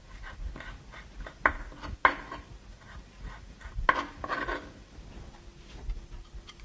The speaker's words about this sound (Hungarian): Felaprítjuk jó apróra, és hozzárakjuk.